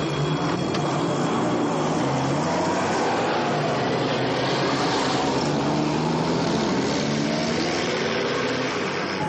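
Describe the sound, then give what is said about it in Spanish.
Two military trucks drive off, their engines giving a dense, steady droning rumble that holds at an even loudness throughout. “Fuera un destacamento monta en dos camiones. Los camiones parten.”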